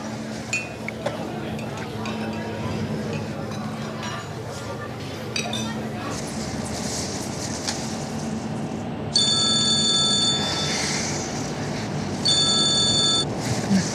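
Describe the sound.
A telephone rings twice near the end with bright electronic trilling bursts, loud over a noisy background, after a stretch in which people talk.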